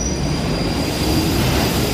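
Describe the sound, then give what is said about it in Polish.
London Underground trains running at rush hour: a loud, steady rumble of wheels on track, with a thin, high-pitched wheel squeal held throughout. “Szczyt w londyńskim metrze. To setki tysięcy ludzi przewijających się przez stację. Ścisk w wagonach i pośpiech.”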